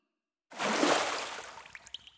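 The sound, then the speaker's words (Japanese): Hot water is poured to rinse someone off, giving a sudden broad splash that rushes for about a second, then fades into a few scattered drips and trickles. “そろそろお湯で流してあげるよ。”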